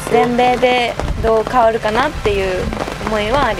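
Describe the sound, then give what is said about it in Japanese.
Raindrops patter on a tent set up in front of a clubhouse at a cold, rainy golf tournament, a steady light crackle under a woman speaking. “ほんのパチパチパチパチこうテントを雨粒が、打ってる音が聞こえてきたと思うんですけれども”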